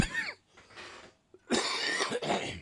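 A few harsh coughs from a tickle in the throat come in separate bursts with short gaps. The later bursts are denser and rougher, and no one speaks.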